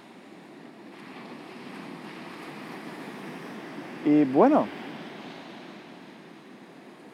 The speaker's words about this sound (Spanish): ¿Puedes escuchar las olas del mar? Espero que sí, porque a mí me parece un sonido muy bonito.